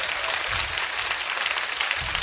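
Dense hand clapping keeping time with a devotional sung performance, a loud, steady wash of many hands with no breaks.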